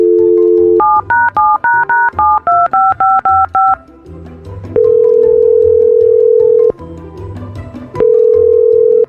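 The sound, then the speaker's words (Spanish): A phone number is dialed for a call: a brief steady tone gives way to a quick run of loud touch-tone beeps at shifting pitches, followed by two long, steady ringing tones with a short gap between them. “Vamos a llamarle a una persona, ¿ok?”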